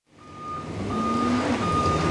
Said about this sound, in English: At the front of a tall metal building, a dump truck backs up to a bake bay door.